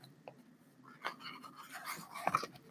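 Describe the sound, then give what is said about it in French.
Pages of a book being leafed through, soft papery rustles and flicks that are faint throughout, with a few brief brushing sounds clustered in the second half and no talk. “je suis en train de feuilleter le livre en même temps que je s'en parle.”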